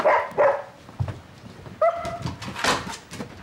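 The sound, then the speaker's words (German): Dog barks and whines at night while people say good night at a doorway: a few short, sharp barks spaced apart, then a higher drawn-out whine and more barking, fairly faint throughout. “Entschuldigen Sie bitte, das bin nicht ich, das ist der Hund.”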